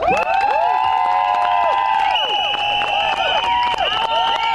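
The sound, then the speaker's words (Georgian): Crowd of women shouting and clapping at a rally outside parliament demanding their rights: a loud, continuous mass of high-pitched cries and whistle-like calls over scattered claps, with no break throughout. “აი ასეთი შეძახილების და სასტუენების ხმის ფონზე მოითხოვდნენ პარლამენტის წინ შეკრებილი ქალების საკუთარი უფლებების დაცვას.”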